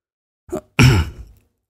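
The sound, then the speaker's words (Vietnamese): A man clearing his throat once: a short low grunt, then a longer, louder rasping clear that fades out, alone against silence. “Chu Vĩnh Bình đằng hắng một tiếng”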